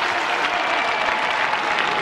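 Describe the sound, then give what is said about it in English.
Stadium crowd at a Pirates–Cardinals baseball game applauds during the seventh-inning stretch, a continuous, even wash of many hands clapping that stays steady and fairly loud throughout. “A nice round of applause for Jared Jones as he and the Pirates lead the Cardinals 1-0.”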